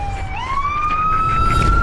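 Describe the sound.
A police car siren wails loudly. Its tone sweeps upward early and then holds a high, steady note over a low rumble.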